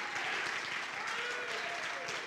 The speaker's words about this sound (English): Oh, and if you're expecting something, why don't you clap your hands a little louder?